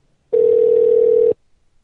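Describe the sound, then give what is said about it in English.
A telephone gives a single steady tone as a call is placed to a hotel room. The flat hum lasts about one second and is framed by near silence on either side. “Call 119. Call those kids. Have them come to their parents' room.”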